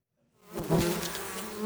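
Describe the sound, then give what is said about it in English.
Stingless Melipona bees buzz at an opened beehive in the southeastern Peruvian Amazon rainforest, a dense, steady swarm hum that swells in and holds at an even level. “There is no danger in opening this beehive without protection gear. These bees are stingless. The Melipona bees, a species as gentle as it is vital for the health of the rainforest.”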